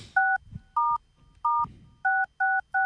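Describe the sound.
Touch-tone dialing of a telephone number, six clear, steady beeps of equal loudness in an uneven rhythm, separated by short gaps, with no voices.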